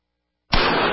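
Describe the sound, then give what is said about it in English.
A .44 Magnum pistol shot striking a hybrid Kevlar bulletproof vest: one sharp, loud bang cutting in from silence, followed by a dense, noisy roar that carries on to the end. “That's the sound of a 44 Magnum and Trauma Max.”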